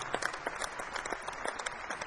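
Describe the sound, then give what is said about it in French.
Audience applause at a live music concert: dense, steady clapping from many hands that stays even and unbroken throughout, fairly faint overall. “Il faut les applaudir parce qu'ils viennent d'ici.”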